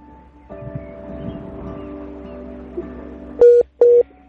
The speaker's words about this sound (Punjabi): Hello ਜੀ, ਮੈਨੂੰ ਲੱਗਦਾ ਜੀ ਉਹਨਾਂ ਦਾ ਫੋਨ ਡਿਸਕਨੈਕਟ ਹੋ ਗਿਆ।